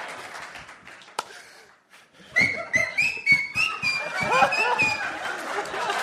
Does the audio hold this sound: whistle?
yes

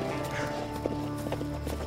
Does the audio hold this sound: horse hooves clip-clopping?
yes

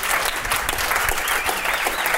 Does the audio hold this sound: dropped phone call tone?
no

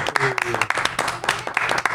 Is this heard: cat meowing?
no

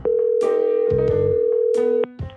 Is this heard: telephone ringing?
yes

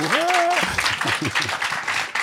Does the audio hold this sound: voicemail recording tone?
no

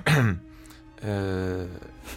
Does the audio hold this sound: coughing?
yes

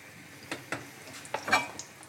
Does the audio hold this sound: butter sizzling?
yes

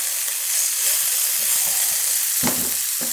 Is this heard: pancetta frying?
yes

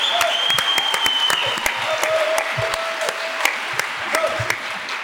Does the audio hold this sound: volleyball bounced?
no

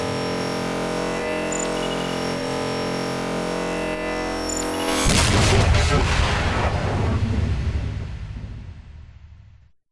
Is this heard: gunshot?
yes

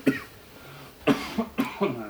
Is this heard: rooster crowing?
no

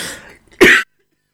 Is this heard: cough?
yes

